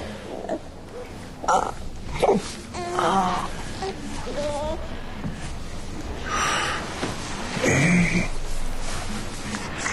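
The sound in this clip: A fussy baby boy whimpers and wails in drawn-out, moaning cries that rise and fall in pitch, with short sniffly breaths between them and adult voices around.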